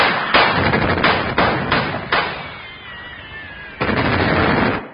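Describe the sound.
Gunfire from soldiers' guns: several sharp cracks with short decaying tails in fairly quick succession, a pause, then one more shot.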